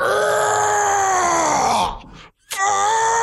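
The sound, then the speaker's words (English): A voice imitates the loud, strained grunting of a man lifting heavy weights: a long, sustained groan-like bellow, then a brief pause, then another drawn-out grunt. “he's the kind of dude who makes a shit ton of noise as he's lifting everything.”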